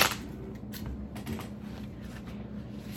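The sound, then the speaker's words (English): Tarot cards picked and flipped, with steady papery rustling and a few soft flicks and taps throughout. “So we're gonna try to see if I could do a different way of picking the cards this week”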